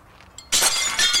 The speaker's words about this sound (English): She turns back as Edgar throws a piece of glass onto the ground.